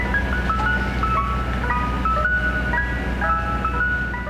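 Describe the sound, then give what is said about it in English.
A Mister Softee ice cream truck plays its jingle on New York City streets, a bright, tinkling music-box melody of high repeated notes that loops steadily over a constant low hum. “New York City Mayor Mike Bloomberg had proposed banning that theme from city streets, where it spills forth all summer long from Mr. Softy ice cream trucks.”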